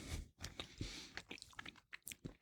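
Someone bites into and chews a gin tonic flavoured fruit gum, making faint, soft, squishy chewing sounds with a few sticky, irregular bites.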